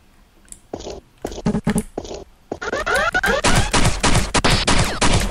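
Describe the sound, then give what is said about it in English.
Pistol gunfire in a video game: many sharp, cracking shots, scattered at first and then packed into a dense, loud burst of rapid fire. “Actually, I think I can use my pistol for this one because I won't be using it anywhere else.”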